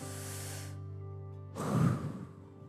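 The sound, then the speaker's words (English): A crowd at a worship gathering taking a deep breath together, one broad, breathy inhale-exhale swelling up and fading over a steady, low sustained tone. “I want everyone in here to just take a really deep breath. Go ahead.”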